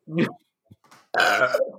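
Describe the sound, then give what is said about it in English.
A loud, drawn-out burp into a microphone, low and rasping, with a brief, shorter throaty sound just before it. “Everybody burp into your microphones.”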